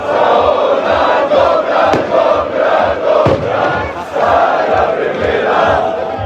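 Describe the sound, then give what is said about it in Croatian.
Dinamo football fans celebrate a league title on the parking lot in front of the west stand of Maksimir stadium, with a music programme playing. A loud crowd roars and chants over a steady rhythmic pulse. “Slavlje se potom s travnjaka preselilo na parking ispred zapadne tribine Maksimira, gdje se proslava igrača i navijača nastavila uz glazbeni program.”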